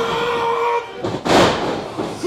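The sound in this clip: A wrestler's body slam onto the ring hits as one sharp, loud thud about midway through, rising above a steady bed of crowd noise.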